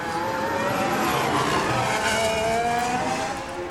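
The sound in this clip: A race car brakes hard for turn one at the start of a timed lap on a six-kilometre circuit, its loud, continuous engine whine sliding slightly lower in pitch, with no voices.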